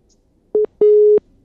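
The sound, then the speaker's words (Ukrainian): Telephone busy tone after a dropped call-in call: two steady mid-pitched tone bursts, a short one followed by a longer one, alone and clear against near silence. “На жаль, зірвався дзвінок.”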